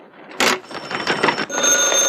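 A telephone rings with bright, high bell-like tones. A sharp noisy burst comes first, and a steadier, fairly loud ringing follows toward the end.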